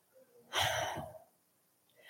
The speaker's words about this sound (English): I ran down to the bathroom and now I'm out of breath.